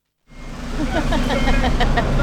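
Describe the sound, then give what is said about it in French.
A truck passing on a road during a street protest gives a rising, steady engine rumble and road noise that swells and holds loud, with voices faintly in the background. “Un camion passe.”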